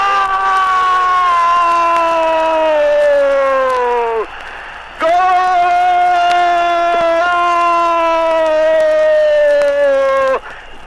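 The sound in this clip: A football stadium crowd roars after a 1978 goal by Quilmes against Rosario Central, heard beneath a man's long, sustained shout whose pitch slowly falls. He pauses briefly for breath, then holds a second long cry while the crowd noise continues.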